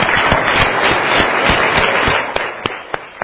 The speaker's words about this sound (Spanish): Sí, denle el aplauso al Señor.